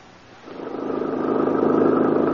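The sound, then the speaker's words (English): A car engine on a drive through the countryside: a steady mid-pitched hum that starts quietly, then swells in loudness and holds. “I'm so glad that we decided to drive out in the country to look at the fall foliage.”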